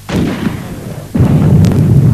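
Artillery guns fire in a Spanish radio drama of The War of the Worlds, with two heavy booms about a second apart. Each one is loud and is followed by a sustained rumbling roar.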